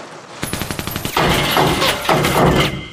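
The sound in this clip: Gunfire in a wartime drama scene: a rapid string of many sharp shots rattles off, then gives way to a louder, sustained roaring blast that swells and fades twice.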